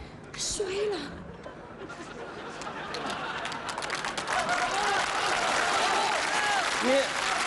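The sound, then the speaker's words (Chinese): Children applaud after a Hebei bangzi opera aria, with patter of clapping mixed with chatter and voices that grows slightly fuller as it goes on, fairly faint overall. “那孩子们他听得懂吧？ 都鼓了掌了。”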